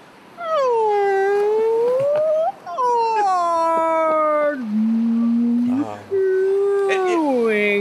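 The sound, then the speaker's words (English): A voice imitates a whale call in long, sustained, wavering tones that glide down and back up, drawn out over a few phrases with brief gaps between them. “Miss Abernathy insists on trying to speak to him in whale, just like she does insensitively to other people of other cultures”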